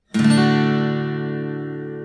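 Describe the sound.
One open D chord is strummed on an acoustic guitar. A crisp attack settles into a full, ringing sustain that gradually softens.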